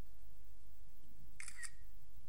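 Phone camera shutter sounds while photographing a medicine box: two quick, bright clicks close together, faint over a quiet background hiss.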